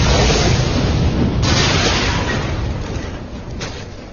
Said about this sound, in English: They ushered the others down the tunnel and around the corner as the Plasex detonated in the lab.